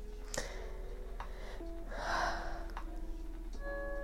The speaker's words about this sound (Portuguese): Eu gosto de respirar antes de conversar com você.